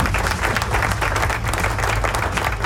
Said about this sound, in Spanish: ¡Aplauso!